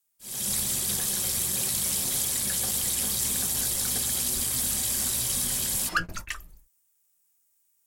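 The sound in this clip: Tap water runs steadily for rinsing, a loud, even rushing stream lasting about six seconds before it is shut off, leaving a few brief drips and then silence.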